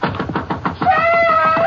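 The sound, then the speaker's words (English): Urgent knocking on a house door: a rapid, evenly spaced run of many loud knocks that keeps going without a break. “Sheriff Glenn Minton is awakened by an urgent knocking on the door of his house. He slips on a bathrobe and walks downstairs as the knocking continues.”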